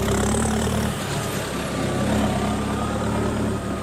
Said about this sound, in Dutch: Er komt al een boze boer aan met een trekker.